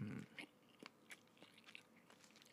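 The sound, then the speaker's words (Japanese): Quiet chewing of an onigiri rice ball, with soft crunchy bites and moist mouth sounds repeating irregularly throughout. “ひとまず食べさせていただきます。うん。久しぶりに食うおにぎりもいいですね”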